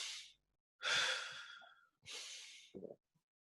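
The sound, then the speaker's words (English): Deep breathing exercise: a full inhale followed by a relaxed, unforced exhale, heard as a few soft, airy breaths alone in quiet, the longest stretching about a second. “it's like you're inhaling all the way and then you exhale with that. You don't force it out. You just kind of let it release.”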